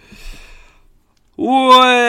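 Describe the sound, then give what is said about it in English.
A loud, drawn-out voiced yawn with a steady, resonant tone, following a brief faint murmur and a moment of silence. “Oh my god, that was... yawn time. That was... I've been stifling that yawn for ages.”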